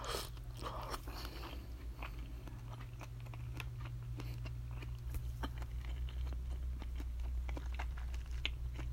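Someone eats rice soaked in broth, making a faint, continuous stream of soft chewing and small crunching clicks throughout, with no talk.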